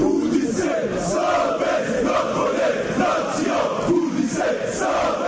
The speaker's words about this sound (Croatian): Ovako su danas pripadnici različitih navijačkih skupina iz cijele Bosne i Hercegovine iskazali nezadovoljstvo protiv, kako kažu, korumpiranog i mafijaškog čelništva Nogometnog saveza Bosne i Hercegovine.